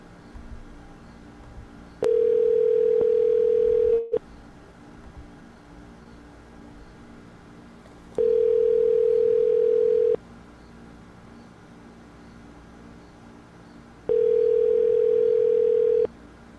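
A telephone tone sounds while a call is placed during a live show: three steady, mid-pitched beeps of about two seconds each, separated by roughly four-second gaps of faint background hiss.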